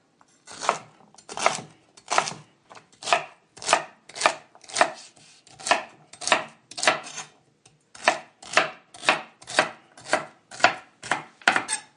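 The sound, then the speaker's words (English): Knife chopping carrots, celery and onion for a mirepoix: many crisp, sharp chops in a steady rhythm, loud and clear with no talking, broken by one short pause partway through. “Sometimes people at home don't spend the time to cut stuff, right? And if you have the time, might as well make it pretty.”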